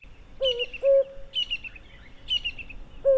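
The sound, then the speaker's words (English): Birds sing in a tree said to hold a kingfisher, a cuckoo and a robin. A low, hooting two-note call repeats while a higher chirping phrase recurs three times above it, with no voices. “Gogo listens and then looks up into the tree to see a beautiful kingfisher, a cuckoo,”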